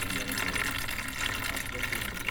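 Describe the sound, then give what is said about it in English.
Water gushing into a giant water bottle as it fills at a newsroom water cooler: a steady, full rushing hiss that holds without a break for the whole clip. “Do you recognize that sound? That is the sound of somebody filling up one of those giant water bottles.”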